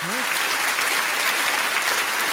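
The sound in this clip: Audience applause fills the whole stretch as a steady, dense wash of clapping at a constant, fairly loud level.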